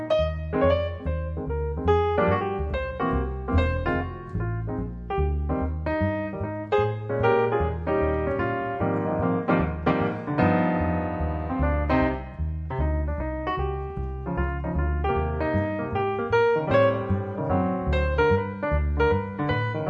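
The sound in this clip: Piano and bass play a Christmas tune together, with bright chords and melody over a walking bass line at a moderate, even pace.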